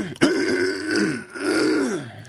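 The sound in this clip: A person clears their throat: a sharp catch, then two drawn-out, growly, rasping hacks with a brief pause between them, loud and on their own.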